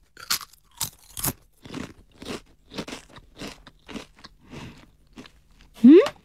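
A crunchy snack flavored with bonito and kelp being bitten and chewed, with many crisp crunches in a steady rhythm, ending with a brief voiced sound.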